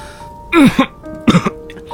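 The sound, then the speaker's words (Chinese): Hoarse coughing from a man with a damaged throat who is coughing up blood, two rough, raspy bursts separated by a short pause. “他喘着息，喉咙破了，那清朗如玉的声音变得哑涩，言辞间还在仓促咳血。”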